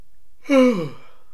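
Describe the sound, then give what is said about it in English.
A single human yawn, a short breathy voiced sound whose pitch slides downward as it fades, heard alone. “That was a yawn, in case you couldn't tell over the audio there.”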